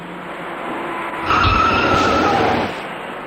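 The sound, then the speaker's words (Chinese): A car crash as a white minibus, approaching fast from behind, rear-ends a slowing car and shunts it into another car ahead. A loud burst of grinding, skidding noise rises over steady road traffic, lasts about a second, then drops back. “从后方快速开来的一辆白色小客猛然撞上了刚刚减速的前车，而被撞的前车又顶上了行驶在前面的另一辆小客。”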